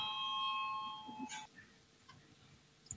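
A faint electronic bell tone rings in a parliament chamber to call a vote. It is a steady, bright ringing that cuts off after about a second and a half. A few soft clicks and quiet room noise follow.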